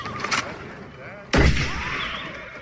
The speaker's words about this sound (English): Are you mad? You shot the coachman! And hit him squarely between the eyes.